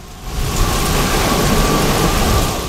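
Heavy rain pours down on a park's drenched shrubbery, a dense, continuous hiss of drops that stays loud and even throughout.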